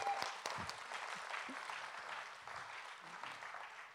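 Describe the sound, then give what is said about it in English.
Audience applause as a group takes its seats: dense, steady clapping that fills all four seconds without a break, holding an even, moderate level. “All right, let's give them all a hand as they take a seat.”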